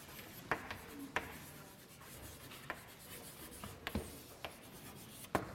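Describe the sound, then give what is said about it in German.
Handwriting in fairly small letters gives quiet, scratchy strokes broken by several sharper taps at irregular intervals, faint and without talk. “Ich schreibe es noch relativ klein”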